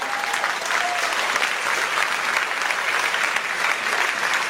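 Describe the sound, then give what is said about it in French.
An audience applauding at a French-language church gathering, a dense, even wash of many hands clapping that continues at a steady level throughout. “Alléluia, pouvez acclamer le Seigneur.”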